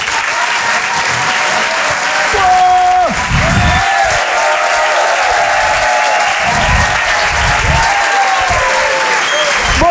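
Applause and cheering from a comedy audience at the Apollo Théâtre in Paris, dense sustained clapping that fills all ten seconds at an even, loud level, with scattered shouts rising out of it.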